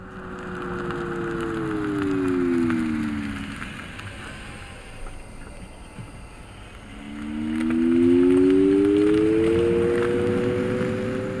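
A synthetic tonal sound added to an electric vehicle: a steady humming tone that slides down in pitch and fades, then returns rising in pitch and louder, over low rumble.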